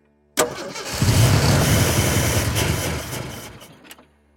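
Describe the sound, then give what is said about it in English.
A vehicle engine starting: a sharp click, then the engine turns over and catches into a loud, rumbling run for about two and a half seconds before dropping away, followed by one more brief click. “Virat could hear Praveen start the vehicle.”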